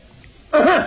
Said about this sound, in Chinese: 咳嗽干什么呀？ 告诉姑娘，我可要唱了。 哦，这是个暗号。